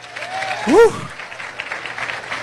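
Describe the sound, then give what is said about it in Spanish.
Applause from an audience during a church sermon, a continuous patter of clapping with a voice crying out over it early on. “Aplauda al Señor en esta noche.”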